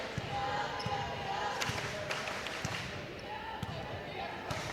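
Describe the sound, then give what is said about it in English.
Steady rhythmic thumps of a basketball being dribbled on the court during a girls' high school game, many even bounces running under continuous talk and background noise. “just standing out there dribbling”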